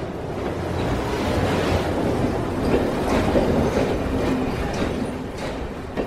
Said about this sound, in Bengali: ভোর 6টায় দুন এক্সপ্রেস পৌঁছালো হরিদ্বার।